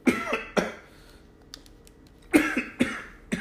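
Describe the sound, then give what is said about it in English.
A smoker's cough comes as a few harsh, raspy coughs in two clusters, split by a quiet pause, with no talking. “smoker's cough.”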